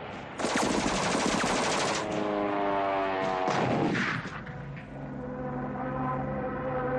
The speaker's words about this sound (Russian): Пулеметная очередь проходит в полуметре от плеча Лопахина.